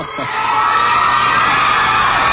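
An audience yells and cheers in a loud, dense mass of shouts and whoops. It swells in quickly and holds steady to the end.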